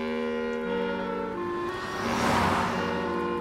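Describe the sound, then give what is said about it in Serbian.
A car passes along a road and splashes water, a soft hiss that swells to a peak and then fades, over sustained tones. “Baš u tom trenutku prođe automobil, pljusnu vodu sa kolovoza i gurnu dugme tako da je dodirnu uplašenu minđušu.”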